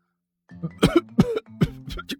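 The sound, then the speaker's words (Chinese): A teacher gives dry, throat-clearing coughs: a few short, rough bursts in quick succession, with no talking. “吴老师干咳了两声”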